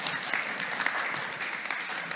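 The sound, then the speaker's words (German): Audience applause fills the whole stretch: dense, steady clapping from a crowd at a gathering, even in loudness with small bursts and no voices. “Please give these people applause. Ja, ein Applaus.”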